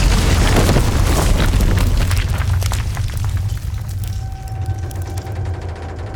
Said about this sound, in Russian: Посреди двора падает бомба и разверзается ад. Взрывной волной качнуло стены. Все взлетело на воздух.